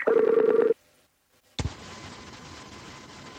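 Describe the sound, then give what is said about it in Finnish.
Telephone dialing tones while adding a call to a conference: a burst of rapid, loud electronic tone pulses lasting under a second, a short silence, then a sharp click followed by steady line hiss. “Odotas, nyt mä soitan sinne päin ja katsotaan, mitä nyt tapahtuu. Add to conference.”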